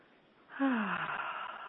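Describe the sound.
One deep breath is drawn in, a soft breathy rush that swells after a quiet start and then holds steady and fairly faint to the end.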